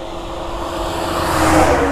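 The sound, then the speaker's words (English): Road traffic passing: a vehicle's broad engine and tyre rumble swells steadily, peaking just after the midpoint before easing slightly, over a low steady hum with no voices. “Sorry about the traffic.”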